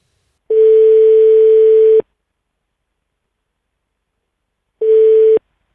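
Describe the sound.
Telephone line tones sound while calling someone back: two steady, mid-pitched electronic beeps separated by silence, the first long and the second much shorter.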